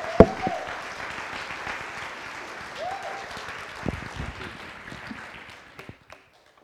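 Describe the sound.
An audience applauds to welcome a speaker to a church stage. A sharp knock comes first, then a crowd of hands claps steadily, thins out with a few last claps and stops near the end.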